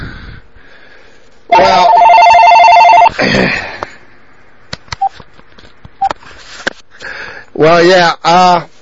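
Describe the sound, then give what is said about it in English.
A telephone rings in one sustained burst of steady, buzzing tones lasting about a second and a half. Talk surrounds it, with a few short clicks afterwards. “look, that was my phone.”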